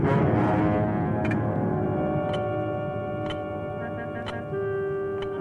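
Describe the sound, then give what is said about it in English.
Loosened jingle taps on small shoes tick lightly during slow walking. The faint metallic clicks come at an even pace, about one per second, over a steady droning tone. “It's a light tap, isn't it? It's a very light tap. So he's loosened the screws so that it's just slightly loose, so it makes a jingly sound on his tiny tippy-toe feet.”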